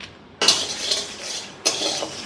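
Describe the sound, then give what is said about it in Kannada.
A metal spatula scrapes and stirs dry spices (green chilli, stone flower and bay leaves) in a pan over a low gas flame. Two loud scraping strokes are joined by a softer, continuous rasping stir. “ಸಣ್ಣ slow ಗ್ಯಾಸಲ್ಲಿ ಹುರ್ಕೊತಾ ಇದ್ದೀನಿ ನೋಡಿ. ಒಂದು 2 ನಿಮಿಷ fry ಮಾಡಬೇಕು, ಒಂಥರ ಇದು flavour ಬರುತ್ತೆ.”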